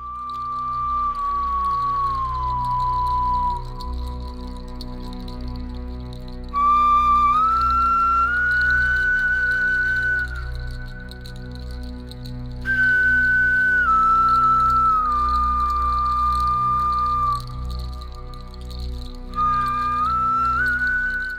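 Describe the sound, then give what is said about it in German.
An ancient flute made from a bear's thigh bone, kept in a museum, plays a slow melody of long, breathy, whistle-like notes with gentle slides between pitches over a soft low drone. “wurde aus dem Oberschenkelknochen eines Bären hergestellt. Und das Besondere hier im Museum ist, ein Musiker hat eine ganze CD mit Musik aufgenommen, die er mit dieser Flöte spielt.”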